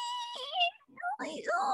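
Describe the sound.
A baby fusses and cries, unhappy and needing a diaper change. Three whiny, wavering bursts come in close succession, with short breaks, moderately loud and alone.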